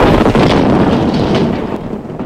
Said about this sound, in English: It was loaded, it exploded.